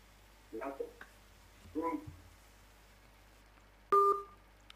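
Telephone line tones as a call is put on air and then disconnects: two short bursts of tones, then a louder steady beep.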